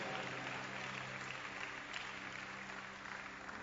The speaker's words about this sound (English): Put your hands together. Keep clapping, keep clapping. Keep clapping, keep clapping.